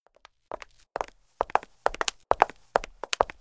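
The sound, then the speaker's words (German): Footsteps of two people come along a corridor and up the stairs of a house at night. The footfalls are steady and evenly spaced, each landing as a crisp double tap in otherwise quiet surroundings. “Ich höre sie durch den Gang kommen, die Treppe hinauf.”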